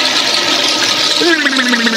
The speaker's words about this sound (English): we'll stick your head in the toilet and flush it.